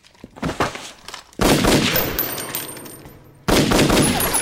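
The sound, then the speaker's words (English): Distant gunshots crack out: two heavy reports, each trailing off in a long, ringing decay, follow a few fainter earlier pops. “You can't hit me from here, honey. You'll run out of ammo first.”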